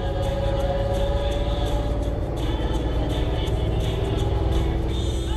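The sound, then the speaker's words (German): A tour bus driving through Edinburgh's old town gives off a steady low engine rumble with humming tones and a faint higher whine that runs evenly throughout, with no voices. “unser Bus nimmt nun Kurs auf die Altstadt.”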